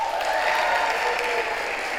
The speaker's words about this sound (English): everybody above the age of 30 just clap their hands